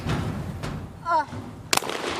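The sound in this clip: A single sharp gunshot cracks out during a team shooting competition, a loud abrupt blast standing out from quieter background noise, with a brief voice sounding just before it.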